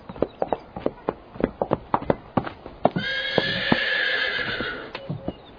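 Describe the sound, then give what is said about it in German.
A show-jumping horse refusing an obstacle: quick, uneven clip-clopping hoofbeats give way to a loud, drawn-out whinny of about two seconds, followed by a few more scattered hoof steps. “Wusste ich's doch. Sabrina verweigert das Hindernis.”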